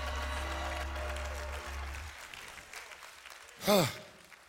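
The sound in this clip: A church audience cheers and applauds with a soft, steady wash of clapping and crowd noise over a sustained tonal background, ending in one loud, brief whoop.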